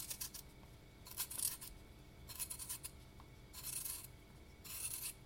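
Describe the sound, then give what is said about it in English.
Potatoes being peeled by hand: faint, rhythmic scraping strokes in short bursts, a series of them separated by brief pauses. “Right, so I've got here some potatoes. I'm going to peel those quickly.”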